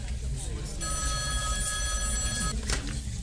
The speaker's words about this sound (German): Oh, die Museumsdirektorin ruft an.